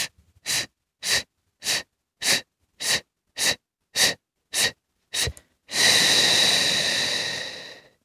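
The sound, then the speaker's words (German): Breathing exercise of nine short, evenly spaced breath puffs in a steady rhythm, followed by one long, loud exhale that slowly fades; no talking. “Ich mache es nochmal vor: Einatmen, kurz halten und dann kurze oder lange auch.”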